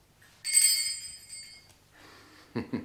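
A small bell is rung to summon a servant in a wealthy household, giving one bright, shimmering ring that fades over about a second, followed by soft rustling and two dull thuds.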